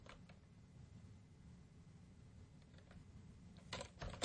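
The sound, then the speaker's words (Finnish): Faint, sparse clicks of a computer keyboard as someone types into a search field, quiet taps scattered across the stretch and gathering into a short, slightly louder burst at the end. “Eli jos mä oon tuolta tupuun valinnut ja sitten mä kirjoitan tänne hakuehtoon.”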